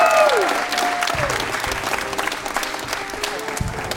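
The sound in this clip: Loud audience applause for a stand-up comedian, dense, steady clapping that slowly eases off.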